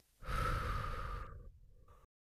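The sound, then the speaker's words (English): A breathing exercise, in through the nose and out through the mouth, taken to calm down during a tense meeting: one long, steady breathy rush that tapers away, with a faint short breath near the end. “take a breather, okay? Breathe in through the nose and out through the mouth.”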